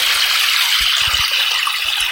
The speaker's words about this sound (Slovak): Posielam vám ešte šum potôčika spod Rakitova.